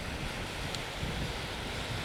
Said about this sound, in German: Deswegen habe ich den anderen Rekorder jetzt ganz einfach mit dem Richtmikro aufs Meer gerichtet und nehme Wellen auf. Als Hintergrundmucke. Wir haben hier auch ordentlich Wind.